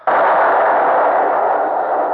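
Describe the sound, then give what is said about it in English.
A ship's broadside of cannon fire strikes a fort in a radio drama. It comes as one sudden, loud blast that holds as a sustained roar and barely fades by the end. “Stand by! Stand by! Broadside! Fire! Fire!”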